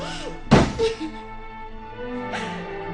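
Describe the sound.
A door is shut with a solid, heavy thunk and a quick second knock right after, then a fainter bump follows a couple of seconds later.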